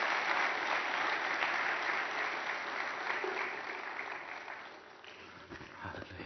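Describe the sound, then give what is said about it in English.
Applause welcomes a preacher to the front for a morning church sermon: a dense, steady wash of many hands clapping that holds strong and then slowly thins and fades toward the end. “I would like to now put our hands together as we welcome this servant of the Lord to come to the front and give us the word of God this morning.”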